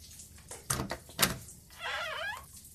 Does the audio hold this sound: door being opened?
yes

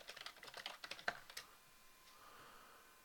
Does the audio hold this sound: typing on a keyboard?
yes

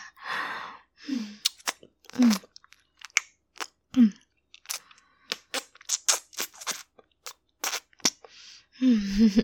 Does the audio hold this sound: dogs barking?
no

